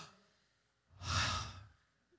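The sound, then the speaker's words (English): A single deep breath, one long, airy rush of breathing that swells and fades over about a second, heard alone with no talk and otherwise near silence. “Come on, let's take it like the doctor when he's checking my heart. Take a deep breath.”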